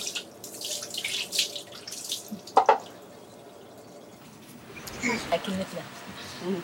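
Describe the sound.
Water splashes and trickles as family members wash a sore on a child's back, with irregular pouring, dripping and splashing that pauses midway and resumes, while voices are heard at times.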